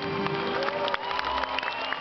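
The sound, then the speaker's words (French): An audience applauding at an awards ceremony: dense, continuous clapping that holds at a steady, fairly loud level throughout. “Applaudissez-vous.”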